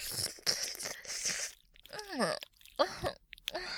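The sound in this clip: Crunchy food being chewed, with noisy crunching bursts and a few sharp crisp bites, broken by a short gap and a brief voiced vocal sweep.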